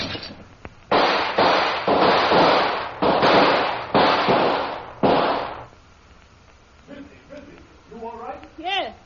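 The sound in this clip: Gunshots fired through a window ring out as a rapid series of sharp, loud bangs, then give way to quieter sounds and a brief voice near the end.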